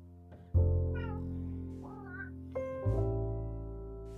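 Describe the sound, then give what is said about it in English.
A domestic cat meows twice, in short drawn-out cries, over steady low droning tones. No one speaks during the meows. “I'm so sorry if you hear my cat in the background.”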